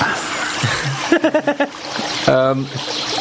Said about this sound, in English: Can we turn the water down a touch? Because I'm drowning.